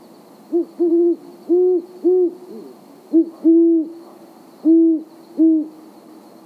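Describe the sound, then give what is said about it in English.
A great horned owl calls in a series of deep, soft, steady-pitched hoots. Many hoots come in uneven groups with short pauses between them, alone against a quiet background. “This is the call of the great horned owl.”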